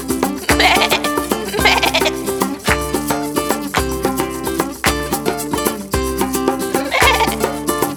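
Goat bleats rising over a rhythmic, busy song, a few sharp calls standing out above the steady beat and layered instruments.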